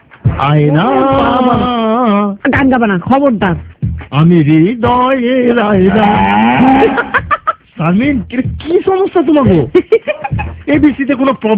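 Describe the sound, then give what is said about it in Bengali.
Cattle moo many times in long, drawn-out, wavering calls, loud and closely spaced with only short gaps between them. “আমি কথা কইলি খালি গরু ডাকে”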